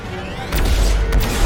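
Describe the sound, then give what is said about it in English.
Swarming probes fire lasers in a video game, with two sharp, crackling blasts over a low, rumbling background. “Oh, a whole swarm of probes! Oh, shit! They're shooting a bunch of mini lasers at us!”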